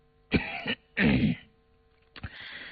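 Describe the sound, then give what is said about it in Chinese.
A man gives a dry, throaty cough: three short, rough bursts with brief pauses between them, heard alone against a quiet background. “允祥身子仰了仰，干咳了一声，”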